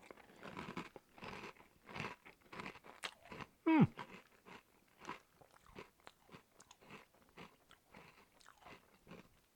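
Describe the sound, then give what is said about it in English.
Crunching and chewing of honeycomb breakfast cereal: many soft, rhythmic bites and munches at low volume, with one sharper, louder crunch partway through. “So let's give Wheatles honeycomb. A little taste.”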